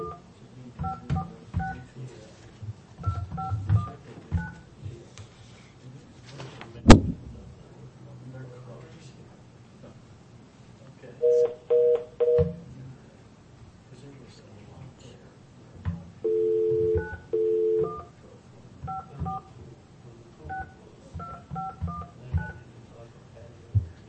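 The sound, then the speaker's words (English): Touch-tone telephone dialing: a few bursts of steady dual-pitch keypad beeps sound between stretches of people talking, with scattered clicks and handling noise. “I wonder, do I, if I dial 417 on a 546? Don't dial 417 on it.”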